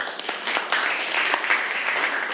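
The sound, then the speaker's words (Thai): Applause from a group of participants at a question-and-answer activity, a dense, even wash of many hands clapping that carries on steadily from start to end without a break. “ปรบมือให้กับณสุภาด้วยค่ะ”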